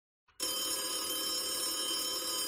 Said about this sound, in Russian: Зазвонил телефон.